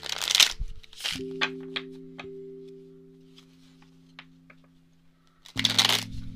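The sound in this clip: A new tarot card deck being handled, with crisp rustling bursts at the start and end, a few soft clicks between, and a steady low hum underneath.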